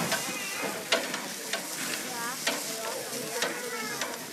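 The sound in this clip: Bratwurst sizzles on a grill at a campsite, a continuous crackling hiss with occasional sharper clicks and scrapes breaking through at irregular moments.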